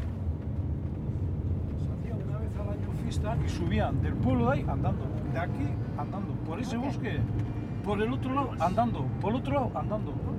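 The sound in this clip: A car drives through a small village near Tolosa in the Basque mountains, its engine and road noise forming a steady low rumble beneath ongoing talk.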